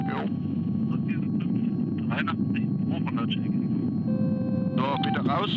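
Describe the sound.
Rescue helicopter Christoph Gießen comes in to land on a narrow, sandy landing site, a steady low engine and rotor rumble droning without a break beneath voices talking over it.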